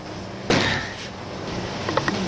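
A special door opens with a single sharp clunk, followed by a brief fading scrape, then a few soft clicks near the end.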